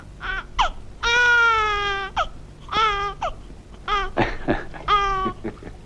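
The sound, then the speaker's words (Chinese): A newborn baby boy cries in repeated wailing bursts: one long sustained cry, then shorter sobbing, hiccuping cries that break off and restart. “给儿子戴上啊！哎，戴哦，别哭，别哭，别哭，儿子。”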